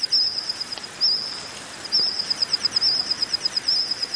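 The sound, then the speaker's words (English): Reconstructed chirping call of an insect from 165 million years ago, modeled from the fossil record, in a forest setting: many short, high-pitched, rhythmic chirps in repeated bursts over a steady faint hiss, with no voices. “Using the fossil record and AI, scientists have modeled the calls of insects that lived alongside dinosaurs.”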